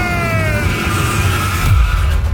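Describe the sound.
A race car engine roars at high revs with squealing tires. The sound is loud and continuous for about two seconds, with a low rumble swelling near the end.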